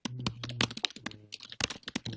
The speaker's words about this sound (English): Furious typing.